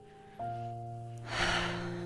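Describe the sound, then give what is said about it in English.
One deep, breathy inhale taken during a guided prayer, rising in the second half over soft, sustained musical tones. “So I invite us to just take a moment to pause in prayer today, to take a deep breath in,”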